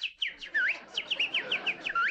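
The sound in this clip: A woman's voice imitates a bird chirping with a rapid run of many high, whistled tweets. The chirps swoop up and down in pitch in a quick, uneven rhythm.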